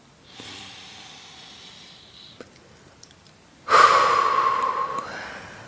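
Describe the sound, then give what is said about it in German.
Deep breathing during a guided relaxation exercise: a soft, drawn-out inhale, then after a pause a much louder, rushing breath with a faint whistling tone that fades toward the end. “Atme nochmal ganz tief ein.”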